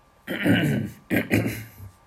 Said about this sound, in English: Gotta clear the mucus out of my throat.